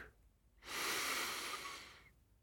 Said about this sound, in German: Ich nehme einen tiefen Atemzug.